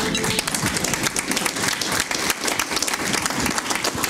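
An audience at a luncheon gives a welcoming round of applause for a government minister: dense, sustained clapping that stays loud and even throughout, with no break.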